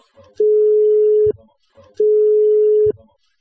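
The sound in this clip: Telephone ringback tone as an outgoing call rings out to someone: two steady, single-pitch tones, each nearly a second long, separated by a brief silence, heard alone without talk.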